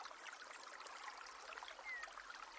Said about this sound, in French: L'eau coule sur les pierres, formant ici et là de petites cascades blanches qui emportent les feuilles et les branchages